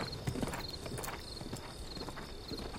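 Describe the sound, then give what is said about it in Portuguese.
Hooves of a ridden horse clip-clop as it nears a mansion, many faint, steady hoofbeats in a regular walking rhythm. “Montada no cavalo, Fernanda se aproxima do casarão.”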